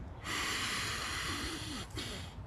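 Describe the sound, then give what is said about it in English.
One long, deep inhalation draws in steadily for about a second and a half during a guided breathing exercise. It is soft and airy, with a brief breath after it. “Let's take one more and let's try to make this one the biggest breath you've taken all week.”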